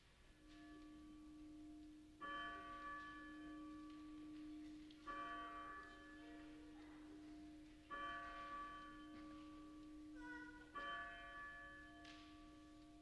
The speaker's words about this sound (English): The Mercy Bell tolls for sinners, for you and me, gently inviting all of us to the wedding feast of the Lamb and his kingdom that has no end.